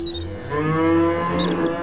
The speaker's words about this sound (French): Ah, des vaches! Bonjour, mesdames les vaches!